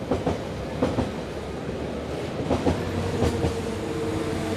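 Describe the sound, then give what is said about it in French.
The Trans-Europe Express passes through Bondy on the rail line, a steady heavy rumble punctuated by several rhythmic clickety-clack beats of wheels over the rails, with no voices. “Le Trans-Europe Express ne s'arrête pas à Bondy, mais il y passe.”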